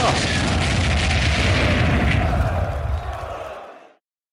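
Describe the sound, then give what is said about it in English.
Heavy explosive blast as ER large lasers strike a mech in the face, a broad roaring boom that holds for about three seconds and then fades away. “And now he's moving for the kill with a pinpoint blast of ER large lasers to the face for the upset of the era!”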